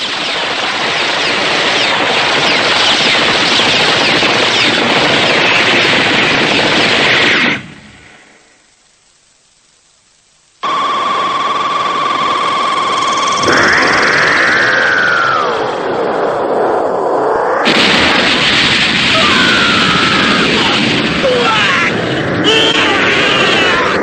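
Heavy roaring blasts in an animated battle scene after a command to fire: a long, dense roar, a few seconds of near silence, then whooshing and whistling effects before the loud roar returns.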